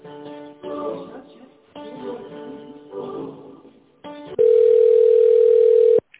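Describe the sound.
Telephone line tones sound while a call is being transferred: a series of repeated buzzy tone bursts, then one loud, steady, unbroken tone held for over a second before cutting off.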